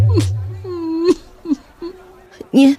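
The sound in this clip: An older woman cries in a radio drama, with drawn-out, wavering wails and whimpers broken by short, catching sobs, ending in a louder strained cry.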